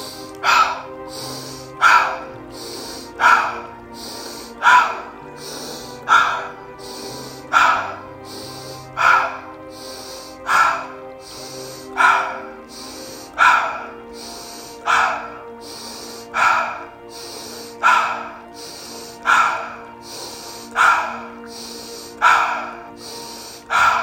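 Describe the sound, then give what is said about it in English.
Many rhythmic breaths, drawn in through the nose and pushed out through the mouth, during a paced breathing exercise. Sharp, breathy bursts come at a steady rate of about one every second and a half over a faint, steady background tone. “Inhale, nose. Exhale, mouth. Let's do 20 of them with an exhale hold.”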